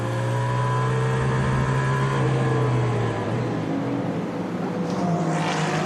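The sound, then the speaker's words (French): An Aston Martin race car, number 009, drives at the 24 Hours of Le Mans on the Sarthe circuit. Its loud, steady engine drone dips in pitch midway, and a whooshing wash builds near the end. “Marco Sorensen au volant de l'Aston Martin 009”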